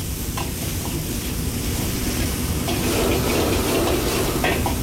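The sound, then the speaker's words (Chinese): Diced celtuce stem, minced pickled chili and bean paste stir-fry over low heat after pork loin, giving a steady crackling sizzle with occasional scraping stir sounds throughout. “然后加入处理好的青笋丁、泡椒末和豆瓣酱，继续开小火把料头炒出香味和颜色。”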